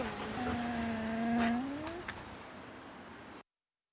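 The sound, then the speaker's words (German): A dog whimpers in one long, drawn-out whine that wavers in pitch and swells before fading. It is fairly loud, heard alone, and then cuts off abruptly. “Halt die Schnauze, Köter!”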